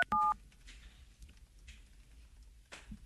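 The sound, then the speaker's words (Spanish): A single short dual-tone telephone keypad beep sounds loudly as a call is transferred, then the line falls to faint, low hiss. “Llamada transferida a Claro.”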